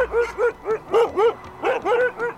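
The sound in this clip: Sled dogs yip and whimper in a quick, steady run of high, whining barks, each bending up and down in pitch, moderately loud with no talk.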